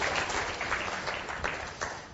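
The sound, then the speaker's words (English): Audience applause greets a speaker being welcomed on stage for a talk: a dense, steady wash of many hands clapping, fairly loud throughout, with a few brief swells and no voices over it. “I don't know why you're applauding, because I haven't said anything yet, and you might want to withdraw those applause as I begin to talk.”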